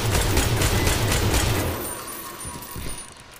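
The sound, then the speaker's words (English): Rapid gunfire from the video game Destiny 2 during a full-team match, a dense, loud stream of shots through the first half that then drops to quieter, scattered firing. “Bro, what the hell are you shooting at? Bro, look. Our other teammate, the Walt man, is just shooting at nothing. But still ends up getting a kill.”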